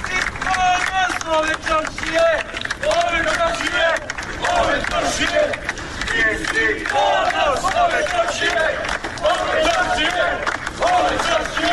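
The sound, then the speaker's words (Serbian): A crowd of townspeople outside a police station shouts in support and claps, loud overlapping voices rising and falling in bursts over steady clapping for the whole stretch. “građani su je dočekali aplauzom i povicima da je ponos čaršije”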